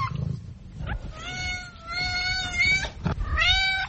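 A cat meows a few times, high-pitched and tonal: a brief call, then one long drawn-out meow, then a final shorter cry, with no talking.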